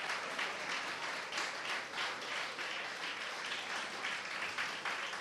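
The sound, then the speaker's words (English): Church audience clapping for a newly engaged couple, a steady wash of many hands applauding, faint and continuous with no voices over it. “okay, let's stop clapping.”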